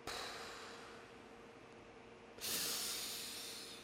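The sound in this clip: A deep inhale is heard as a steady airy hiss that swells into a louder rush of breath partway through, then slowly eases off, faint and with no talking.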